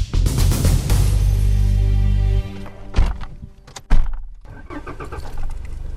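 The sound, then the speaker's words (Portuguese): Inside a four-wheel-drive van on narrow sandy dirt roads with potholes and puddles, a loud steady engine and road rumble gives way to jolting thuds and bumps. “Estamos dentro de uma carrinha com tração às quatro rodas, o ideal para estas estradas estreitas de terra batida, ou melhor, de areia, com buracos e muitas poças de água.”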